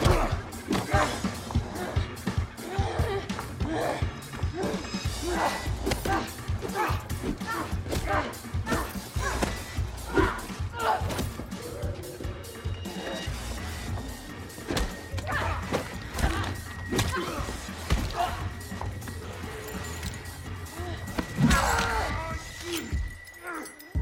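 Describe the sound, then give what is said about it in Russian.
Film fight between a woman swinging a key and a man blocking her blows: many scuffling thuds, knocks and sharp impacts in an irregular, busy run. “Лоррейн нападает с ключом в руке. Мужчина блокирует ее удары.”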